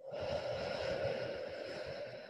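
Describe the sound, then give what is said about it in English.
A long, deep breath let out during a guided breathing exercise. It is a steady, airy rush of breath that holds at an even, fairly loud level for about two seconds. No talk is heard over it. “breathe in. Hold, breathe out,”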